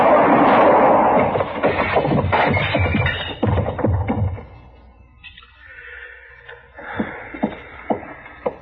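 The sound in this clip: Gunshots in an old western radio drama: talk and tense sound at the start give way to a few sharp, thin shots near the end, heard through narrow, muffled radio sound.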